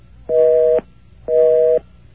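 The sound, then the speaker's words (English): A telephone busy signal, two identical steady tone bursts of about half a second each, separated by an equal silence, loud and alone with no voices. “You gave a busy number.”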